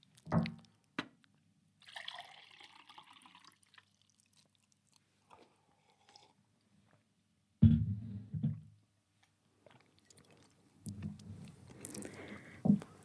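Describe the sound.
A person takes a few sips of a drink during a pause in a conversation: faint wet sips and swallows separated by quiet gaps, with a couple of louder, low bumps among them.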